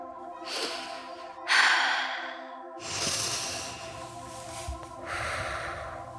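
A person breathing slowly and deeply, with several long, drawn-out breaths carrying a soft airy hiss and separated by short pauses, over a steady sustained musical tone.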